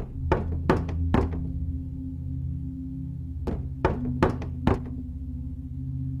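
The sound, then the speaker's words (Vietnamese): Seven knocks strike a door: a quick group of three, then after a pause a group of four. Each is a sharp, hollow thud over a steady low hum. “Lại đủ 7 tiếng gõ vang lên ở ngoài cửa.”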